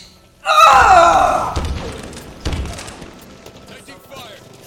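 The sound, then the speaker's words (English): Heavy thuds of a hammer striking enemies in a shooter video game: two strong impacts about two seconds apart, each with a sharp attack, set against busy in-game noise. “Why do I have to hit people twice with a hammer, but they hit me once?”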